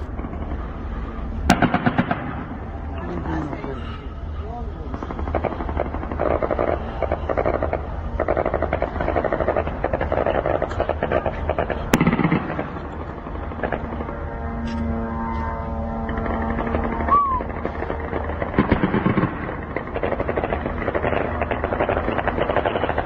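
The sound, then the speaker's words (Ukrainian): A Shahed drone attack on southern Ukrainian ports, filmed from Romania: a steady, loud, rough engine-like drone runs throughout, broken by a few sharp bangs. “видео, которое сегодня вот снимали, я так понимаю, жители Румынии, румыны, атаки очередной, уже ставшей привычной, на южные порты Украины шахедами.”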